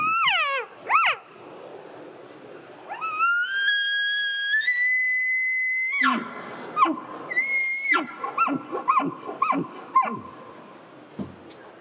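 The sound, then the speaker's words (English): An elk locate call is blown on a low-note LOF reed: rising, squealing whistles, then a long, loud, steady tone that steps slightly higher, followed by a run of shorter chirping notes and squeaks. “We use that a lot of times when we're locate calling for elk, and it seems like that low note carries really far. So here's the LOF reed.”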